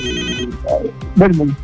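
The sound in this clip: A telephone rings with an incoming call on a call-in quiz show: a short ringing tone sounds at the start, then voices talk over the line.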